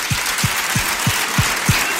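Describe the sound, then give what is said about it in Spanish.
Church audience applauding, a broad wash of clapping underpinned by six evenly spaced low thumps in a steady beat. “Denle un gran aplauso al Señor.”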